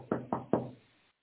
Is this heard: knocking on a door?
yes

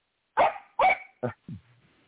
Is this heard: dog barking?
yes

